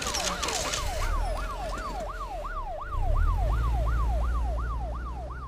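A police car siren wails in a fast, repeating up-and-down yelp. Each sweep rises and then drops sharply, cycling many times over a low vehicle rumble that swells about halfway through.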